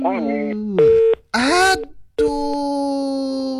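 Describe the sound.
Telephone line tones on an opened call-in line: a few steady, sustained tones, each held and then cut off, separated by short silent gaps, ending in a long unbroken tone.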